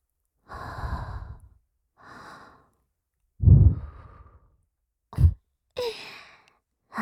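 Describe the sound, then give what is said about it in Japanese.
Slow, breathy exhalations and sighs from a close, intimate voice. Several airy releases are separated by silence, with one deeper voiced sigh midway and a couple of short puffs near the end. No words are spoken. “僕の吐息、どう？”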